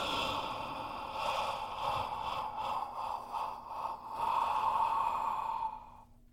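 Slow breathing during a meditation, a soft, airy inhale drawn in and then let out as a long exhale, faint and continuous with no talking.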